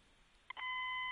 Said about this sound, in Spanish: Vamos a volver a intentar la, llamada. A ver.